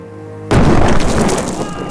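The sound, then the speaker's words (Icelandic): A sudden loud explosion in wartime that showers rocks and sand, bursting in over a low tonal hum and then holding as a dense, noisy roar that slowly thins. “Nú eru þessar hugsanir mína rofnar með sprengingu sem þeitir yfir okkur grjóti og sandi.”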